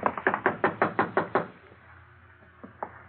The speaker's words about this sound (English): Then I'll do the knocking.